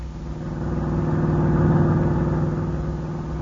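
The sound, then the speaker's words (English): A car engine hums steadily as the vehicle drives into a ranch. The low, mid-pitched drone swells gently and eases back, fairly quiet and unbroken, with no talk over it. “As we pick them up, they're just driving into the ranch.”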